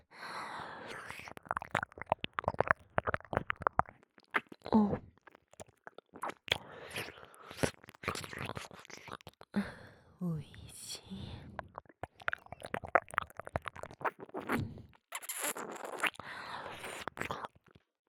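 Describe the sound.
ASMR mouth sounds of a tongue licking and massaging an ear: many wet, clicky, squishy bursts in an uneven rhythm, with soft whispering between them.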